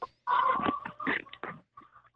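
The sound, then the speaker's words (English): Chickens cluck behind a caller on a phone line, a few short, throaty bursts in quick succession with brief gaps between them. “Are there pigs and chickens behind you right now?”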